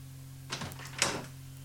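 A door opens with two brief, soft scraping sounds over a faint steady hum.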